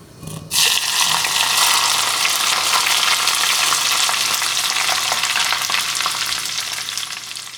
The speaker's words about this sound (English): The sound of making chili oil is also very relaxing. After you put hot oil on the chili, you get this sound.